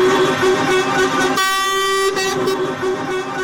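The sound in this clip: Truck horns blare from a protest column of more than 500 haulage trucks clogging a main road in Sarajevo, a loud, continuous wall of overlapping horn blasts that holds steady with no pause.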